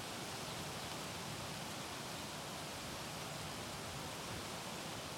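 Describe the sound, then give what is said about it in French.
The sea breaks against black rocks along a stony, pebbled shore, forming a faint, constant rushing roar with no distinct separate wave crashes. “Ici, c'est que des rochers, hein, c'est que des cailloux. Là, et la mer qui se déchire sur les rochers noirs.”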